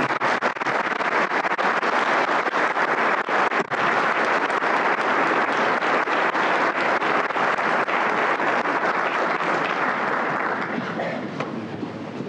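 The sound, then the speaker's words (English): A large audience applauds a cosmologist and astrophysicist as he is introduced, a dense, steady roar of many clapping hands that holds for about twelve seconds before easing slightly at the end. “And I'd like you to give Robert a round of applause.”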